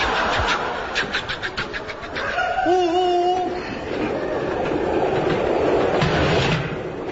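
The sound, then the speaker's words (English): A train running on rails gives a steady, loud rumble with rhythmic clickety-clack at first. Brief tonal squeals rise out of it midway before the rolling noise carries on alone. “You're supposed to be driving this train.”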